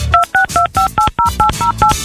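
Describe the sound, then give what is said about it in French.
Telephone keypad tones sound as a number is dialed: nine short dual-tone beeps in a quick, even sequence, each clearly separated by a brief gap, fairly loud and with no voices. “Laissez-moi le temps de composer ce numéro de téléphone là, qui est peut-être le numéro de téléphone de la chance aujourd'hui, oui.”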